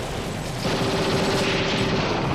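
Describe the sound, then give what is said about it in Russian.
A machine gun fires from across a river during a wartime pontoon landing. The rapid fire is dense and continuous, loud and unbroken for the whole burst. “И вдруг с того берега застучал пулемет.”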